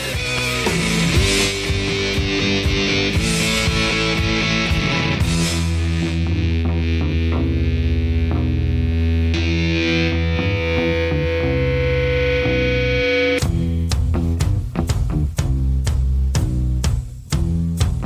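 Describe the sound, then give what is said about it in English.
Distorted electric guitar feedback swells within a loud rock song, then cuts off abruptly into sharp, hard-hit drum strikes. “the feedback sort of escalates and then cuts off abruptly, but it doesn't sound like a hard cut”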